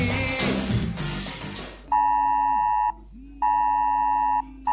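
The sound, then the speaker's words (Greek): Emergency alert tone warning of dangerous weather: two long, steady, piercing electronic tones, each lasting about a second, separated by a short gap. “Ο Θεέ μου προειδοποίηση για επικίνδυνα καιρικά φαινόμενα ναι.”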